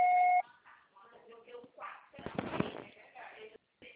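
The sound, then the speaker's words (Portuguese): A short, loud electronic answering-machine beep sounds as a steady, pure tone at the start, just before the message recording begins, and then gives way to talking. “Grave seu recado, você só será tarifado após o sinal. Grave seu recado.”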